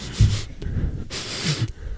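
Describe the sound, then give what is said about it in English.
Someone sniffs, smelling for gasoline after a car crash. There are two short, breathy sniffing bursts separated by a brief pause, fairly loud and close, with no talk. “Sniff, sniff. What do I smell? Gasoline.”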